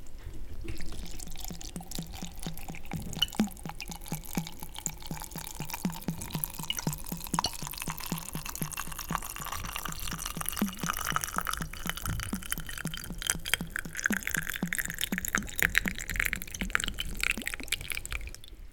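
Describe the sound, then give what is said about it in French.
Cider vinegar pours over rosemary, rose hips and other ingredients to cover them completely. The stream makes a steady, rapid, faint glugging, and its pitch rises gradually as the vessel fills. “Et donc, une fois qu'on a mis ce romarin, on verse le vinaigre sur tous les ingrédients.”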